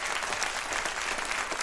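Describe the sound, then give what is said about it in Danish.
Applause from a group of people: dense, even clapping that stays at a constant level throughout, with no talk over it. “Ja, giv lige et bifald.”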